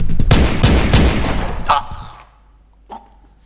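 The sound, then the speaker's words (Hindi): A pistol shot fired during a scuffle: a loud, dense burst of sharp, cracking noise that dies away into quiet, followed by one faint, brief knock. “दींगा मुश्ती में पिस्तौल चल गया”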